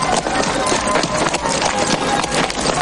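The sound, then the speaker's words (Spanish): Hoofbeats of two horses carrying riders along a street in a western film, a steady, fairly loud clatter of clip-clop steps that runs without pause throughout. “Se da la vuelta y mira hacia dentro, mientras dos hombres a caballo pasan por la calle que hay delante.”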